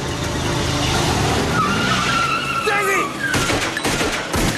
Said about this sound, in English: The police vehicle's wheels spin in some mud